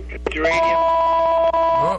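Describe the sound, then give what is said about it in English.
A telephone rings with an incoming call on a business line: a steady electronic two-tone ring held for over a second, briefly cut once near the end, with voices close around it. “Now we got a phone call.”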